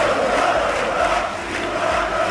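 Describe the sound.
Crowd of Joventut Badalona basketball fans chanting in the town hall square in Badalona to celebrate a Supercopa win, a dense, continuous roar of massed voices that dips briefly midway.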